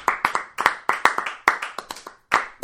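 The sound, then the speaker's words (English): Applause from a small audience welcomes a performer onto the stage at a live show: many sharp, distinct hand claps in uneven bursts, with a brief gap near the end before a last few claps. “Now we're going to have him on. Yeah. Well, Miles, come on up. Put your hands together.”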